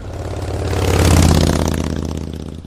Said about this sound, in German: Auf der Straße waren ganz viele Autos. So früh am Morgen ist auf den Straßen schon sehr viel los. Da fahren Autos, Motorräder,